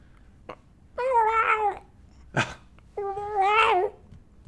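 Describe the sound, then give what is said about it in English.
A human voice imitates an annoyed cat's meow with two drawn-out, whiny meows separated by a short sharp click, loud against a quiet background. “like it's an annoyed meow.”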